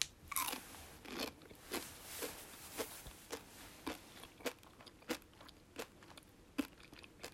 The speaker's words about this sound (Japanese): もう美味しいんだけど、最後の一口いただきます。